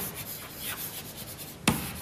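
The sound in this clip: Writing on a board gives a few faint, scratchy strokes and then one sharp tap, all quiet and with no voices.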